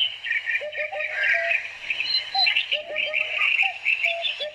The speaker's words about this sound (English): That's the call of the Eurasian hoopoe. Eurasian hoopoe, and it's an onomatopoeic name.